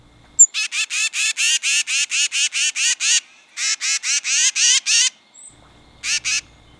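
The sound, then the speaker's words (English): A tufted titmouse gives its alarm call in response to a hawk overhead: a rapid series of harsh, buzzy, high notes in three bursts, a long run, a shorter one, then a final pair, with nothing else heard. “Tufted titmice also give a high-pitched alarm call in response to a hawk flying overhead. It sounds like this.”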